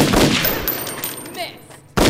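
Gunshots ring out: two loud, sharp blasts, one at the start trailing off into a fading tail and another hitting abruptly at the very end.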